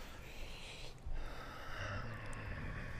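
Ujjayi breathing in a yoga class, with people breathing together: soft, hissing, ocean-like breaths swell and ease at a slow, steady pace.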